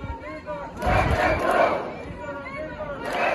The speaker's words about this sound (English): That was a cry of hundreds of protesters who gathered around the van